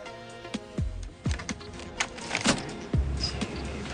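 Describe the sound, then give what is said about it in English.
A floppy disk is inserted into a computer, giving a few sharp plastic-and-metal clacks, each followed by a short low mechanical whir from the drive. No voices are heard. “Jesse inserts a floppy disk into a computer and brings up a 3D graphic of a car.”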